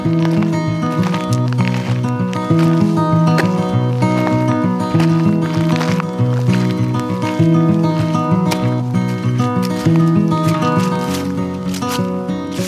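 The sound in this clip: Instrumental music plays throughout, a bright, steady tune with a regular beat and sustained tones and no voices.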